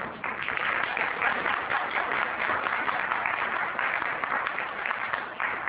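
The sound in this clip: Audience applause during a speech: dense, steady clapping that keeps a constant loud wash from start to finish without a break.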